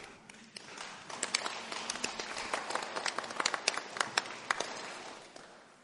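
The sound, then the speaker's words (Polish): Audience applause with scattered hand claps that build into a quick, uneven patter. Sharper individual claps stand out, and the sound stays fairly faint for several seconds. “Brawa dla was.”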